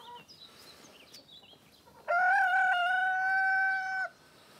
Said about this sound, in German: bei der sich die Hühner nur ungern stören lassen.